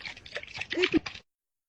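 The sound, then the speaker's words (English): Water sloshes inside a coconut being shaken, a short burst of liquid gurgles and splashes lasting about a second before cutting to silence. “The secret sound for today is shaking a coconut from Carlson.”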